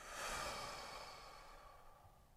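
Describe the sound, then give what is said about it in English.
A deep breath through the nose during a guided meditation, a soft airy rush that swells early and then fades slowly over about two seconds, heard alone without talk. “Take a deep inhale through your nose. Audible exhale.”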